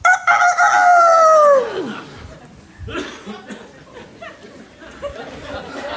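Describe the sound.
A voice imitates a rooster's crow in mockery: one loud, drawn-out harmonic call that falls in pitch at the end, followed by quieter, scattered background noise.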